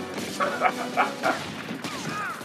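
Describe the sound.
Gunfire in a video game gunfight with police: a few sharp shots in an uneven rhythm, each cutting over a steady bed of game noise, with a wavering tonal sound near the end.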